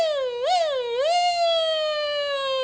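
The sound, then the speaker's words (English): A voice imitates a series of siren sounds as a nasal-resonance vocal exercise: two quick upward pitch swoops that dip back down, then a long held tone that slowly sinks, steady and fairly loud with no other sounds. “you can also try a series of siren sounds like this. Go ahead and try that.”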